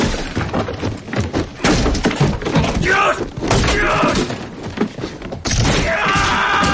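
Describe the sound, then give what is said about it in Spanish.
Chairs hurled in anger during a tense drama film scene, heard as many heavy thumps, clatters and crashes in a dense, loud jumble, with a voice mixed in. “Lanza sillas con rabia.”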